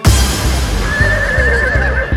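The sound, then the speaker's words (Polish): A horse neighs, one of a herd of wild horses, letting out a long, high, wavering whinny over steady, regularly spaced low thumps, with no talk. “Zapraszamy wszystkich na przyjażdżkę z tabunem dzikich koni.”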